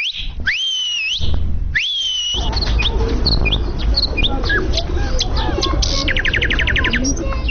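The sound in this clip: A person whistles at animals in a zoo with two loud sliding notes that rise and fall in pitch, followed by a dense chorus of chirping, tweeting birds.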